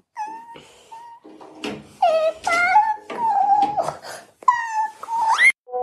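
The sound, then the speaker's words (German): A small child cries and wails after a cartoon is switched off. Drawn-out, high, wavering sobs are broken by short pauses and end in a rising wail. “Das, was du gerade gehört hast, war mein kleiner Sohn. Ich habe den Zeichentrick ausgeschaltet und der hat geweint.”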